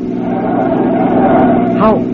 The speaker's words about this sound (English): Can't this car go any faster than this? Take it easy, Mr. Noble. We'll be there in a minute.